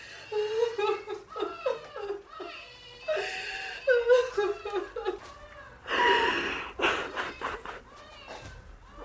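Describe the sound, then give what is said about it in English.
A person sobbing in uneven, whimpering bursts with catching, gasping breaths, continuing throughout at a moderate, shaky level. “please stop sobbing”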